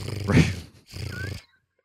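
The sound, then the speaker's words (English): A person imitates a cat's purr with their voice, making two rough, rumbling voiced bursts separated by a short gap before falling silent. “Can you any of you guys purr? Is that something that... Yeah. I mean, I can do that.”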